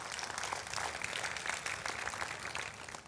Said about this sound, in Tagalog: Palakpakan po natin yung Panginoon.